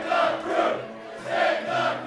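Crowd of fans cheering inside a brewery after news about their team, two loud swells of shouting and whooping with a dip between them.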